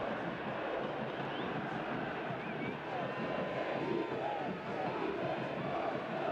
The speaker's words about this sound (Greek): Κλασική ευκαιρία και ξεσηκώνεται ο πλήθος στις κερκίδες.